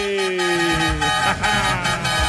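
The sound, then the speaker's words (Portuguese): A horn honks in a loud, sustained blaring tone through the first second, set against dense, loud music that carries on after the honk ends. “Chama na buzina. Só pra dar aquela chacoalhada gostosa.”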